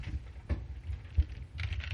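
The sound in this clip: Faint typing on a computer keyboard, with a few scattered clicks and then a quicker cluster of keystrokes near the end.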